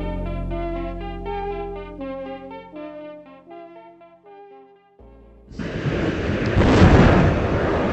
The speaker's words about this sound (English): That's the sound of NASA's newest satellite being launched into space.